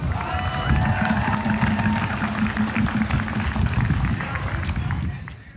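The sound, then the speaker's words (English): Crowd noise at a graduate workers' town hall meeting: a dense, steady rumble of many people with voices mixed in, holding level before tailing off at the end. “The sounds you just heard were from the town hall held by the Indiana Graduate Workers Coalition on September 23rd.”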